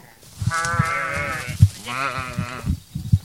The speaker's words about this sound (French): Alors là, nous prenons la direction du pâturage avec les moutons bien encadrés.